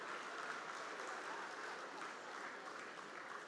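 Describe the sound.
Audience applause welcoming a guest on stage at an event in Mangaluru, a faint, even patter of many hands clapping throughout, with no voices over it.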